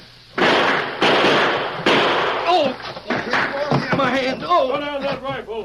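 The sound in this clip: Gunshots ring out in a shootout between outlaws firing rifles and six-guns, a few loud, sharp cracks spaced about a second apart, followed by raised voices talking over further bangs.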